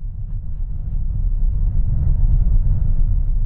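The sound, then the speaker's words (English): A car climbs the steep, sharply winding road up Independence Pass east of Aspen, Colorado, with a steady, dense low rumble of engine and road noise that holds even throughout and carries no talk. “We're driving east out of Aspen, Colorado, up Independence Pass. The steep road has so many sharp turns on it”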